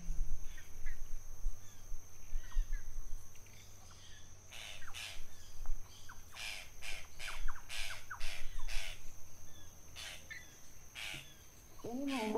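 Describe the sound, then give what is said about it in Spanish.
Harsh, clicking squawks of a small bird locally called tacataca: many short calls in an irregular series, bunched in the middle, over a steady background hiss. “¿Qué pajarito es? Pajarito el tacataca. El tacataca, ¿eh?”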